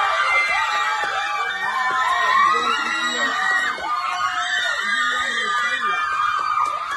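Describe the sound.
Crowd at a house party screaming at the winning moment of a grand final, with a piercing high-pitched squeal riding over continuous loud shouting, cheering and laughing voices throughout.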